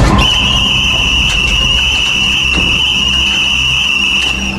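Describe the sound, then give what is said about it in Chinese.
A whistle blown hard by a squad leader at an officer cadets' meal: one long, loud, shrill blast that holds a steady pitch for several seconds. “区队长将哨子在含进嘴里用力一吹，”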